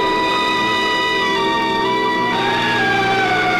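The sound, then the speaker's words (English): A police car siren sounds as the car arrives. The wailing tone is loud and continuous, layered with bright harmonics, over a low rumble of traffic. “Police car arrives.”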